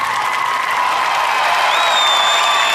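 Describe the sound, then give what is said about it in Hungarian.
Audience applause at a boxing event in Budapest, welcoming a Chinese ring announcer into the ring: a continuous roar of clapping mixed with crowd cheering, with a few thin high tones threading through the second half. “Egy nagyon nagy tapsot szeretnék neki kérni.”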